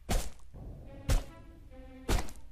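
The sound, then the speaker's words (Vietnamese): A stone is smashed down onto a body again and again: three heavy, dull thuds land about a second apart, each a sharp impact that quickly dies away, with quieter low sound in the gaps. “Mỗi một tiếng chết vang lên là một lần hòn đá ở trên tay tôi đập xuống.”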